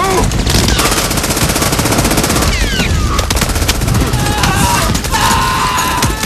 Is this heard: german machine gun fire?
yes

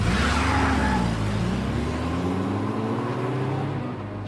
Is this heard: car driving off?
yes

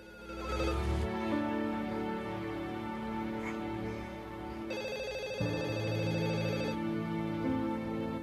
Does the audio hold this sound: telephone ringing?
yes

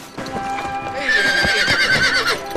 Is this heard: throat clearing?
no

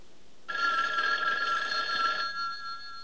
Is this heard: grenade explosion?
no

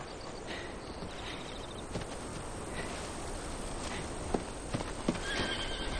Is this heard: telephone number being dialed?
no

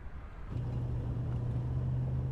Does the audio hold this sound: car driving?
yes

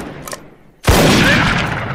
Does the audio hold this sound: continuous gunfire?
yes

